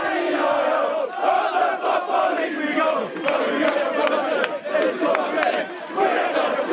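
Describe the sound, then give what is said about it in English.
A football crowd roars in celebration of their club's promotion from League Two to League One, a loud, dense and sustained swell of cheering, shouting and chanting that carries on without a break. “Now, I am an absolute sucker for promotion celebrations. Cheltenham Town did not let us down. This is the sound of a club moving up the Football League.”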